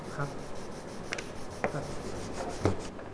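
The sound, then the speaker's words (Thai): Sanding wood along the grain in a woodworking demonstration: a steady, dense rubbing hiss runs throughout, with a few brief, sharper strokes standing out. “ก็ไม่สวย ไม่สวยเพราะงั้นเมื่อเราขัดไอ้ที่มันสูงต่ำกันเยอะๆออกไปหมดแล้วเนี่ยเราต้องกลับมาที่เดิมคือต้องขัดตามลายไม้ละ”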